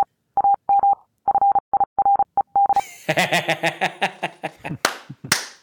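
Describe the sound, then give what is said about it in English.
Morse code beeping: a steady mid-pitched tone keyed into a quick series of short and long beeps for nearly three seconds, then giving way to a louder, choppy burst of other sounds. “Oh, good old Morse code.”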